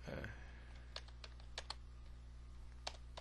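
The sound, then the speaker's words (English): Typing on a computer keyboard while entering text into a web page: faint, scattered keystroke clicks spread irregularly over a steady low hum, quiet throughout. “as I start to type”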